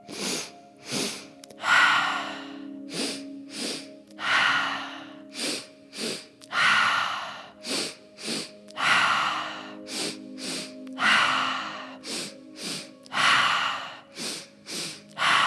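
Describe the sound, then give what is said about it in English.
Deep breathing during a guided breathing exercise, with many slow, audible inhales and exhales in an even rhythm over a soft, steady sustained tone. “A few more at your own pace. Really tune into the breath.”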